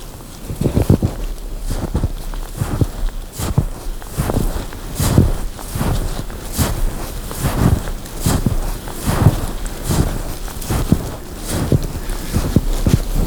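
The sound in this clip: Footsteps walking through snow: a steady, even rhythm of many soft crunching steps, moderately loud and heard alone without talk.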